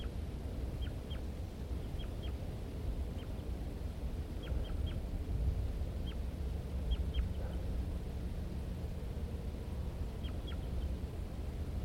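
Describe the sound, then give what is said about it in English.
Male and female birds call near their nest in a pitch pine area, giving many brief, high, faint calls, often in quick pairs, over a steady low background noise. “Start recording the male while the female's on the nest. Male and female responding. Male.”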